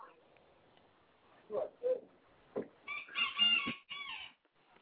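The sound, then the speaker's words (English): A rooster crows faintly in the background on a caller's phone line. A few brief, low bursts of sound come before the higher, strained crowing. “I hear a rooster in the background.”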